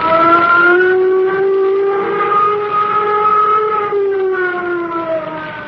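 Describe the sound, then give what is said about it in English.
A flight warning siren sounds before a nuclear jet flight, giving a steady, loud wailing tone with strong harmonics that wavers slightly in pitch and runs continuously. “Sound flight warning signal. Sound flight warning signal.”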